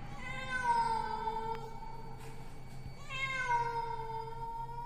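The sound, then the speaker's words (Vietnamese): A cat yowls at night on a rooftop, letting out two long, drawn-out wailing calls with a short gap between them, the second one wavering and swelling at its start. “Con mèo kêu lên phá tan màn đêm yên tĩnh.”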